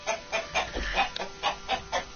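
Chickens clucking in the morning give a quick, rhythmic string of hearty clucks, about eight or nine short bursts in two seconds, moderately loud with no talk over them.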